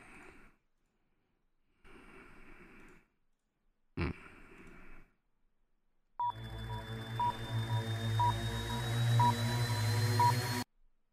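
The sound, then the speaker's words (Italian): Telephone tones sound during a call to a fortune teller. A few breathy noises come first, then a steady line hum starts with a short beep repeating about once a second, five times, before cutting off. “No, niente ragazzi, sto chiamando il cartomante, vi devo fare questa sorpresa, quindi sto facendo tutto in live, in presa diretta”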